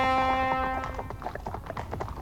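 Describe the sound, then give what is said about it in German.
Horse hooves clattering through quiet morning villages in a radio play, opening under a sustained brassy fanfare note that fades out as a quick, irregular run of hoof clops carries on alone. “Hufe klappern durch die morgenstillen Dörfer, Fanfaren blasen.”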